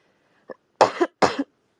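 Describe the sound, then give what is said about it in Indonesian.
Morning coughing from a person: a short, faint throat sound followed by two harsh, forceful coughs in quick succession, then quiet. “Ini kenapa pagi-pagi orang rame banget udah dengerin gua batuk-batuk.”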